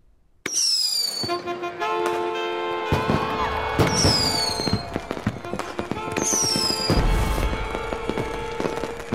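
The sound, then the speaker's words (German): Polish firecrackers set off during a stage performance of William Tell: dense, continuous crackling bangs, cut through by three shrill whistles that fall in pitch. “Seine polnischen Böller, die während der Tell-Vorstellung gezündet wurden, rissen das Publikum von den Sitzen.”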